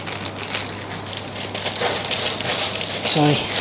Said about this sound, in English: Sorry about the noise. Oh, sizzling already, and I didn't even put the bloody thing in.